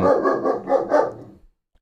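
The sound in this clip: A puppy barks in a short run of a few quick, mid-pitched yaps, fairly loud and evenly spaced, then stops into silence.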